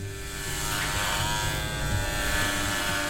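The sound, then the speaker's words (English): An electric razor buzzes while shaving off a patient's shoulder-length brown hair, a continuous, even whirring drone at a steady pitch. “Step two, shave off all of her shoulder-length brown hair in order to secure a special helmet on her head.”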